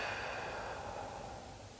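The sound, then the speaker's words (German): A full exhale through the mouth during a breathing exercise: a faint, steady, breathy rush of air that runs throughout and tapers slightly toward the end. “Vollständig ausatmen aus dem Mund.”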